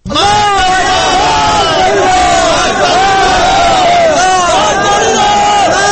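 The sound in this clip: Protesters chanting slogans at a demonstration in Herat: many voices shout together loudly and continuously as a dense, driving crowd roar.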